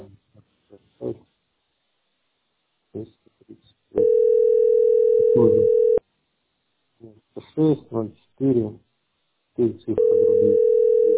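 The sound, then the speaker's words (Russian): Telephone tone heard while calling a landline: two long, steady beeps, the second cut off at the end, with a person talking before and between them. “Я звоню на обычный городской.”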